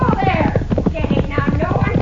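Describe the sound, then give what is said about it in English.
Horse hooves clatter in a quick, uneven rhythm as a horse lunges and rears while plowing, the loud clopping continuing under overlapping voices. “The way that horse is lunging and rearing, he's going to hurt that senora.”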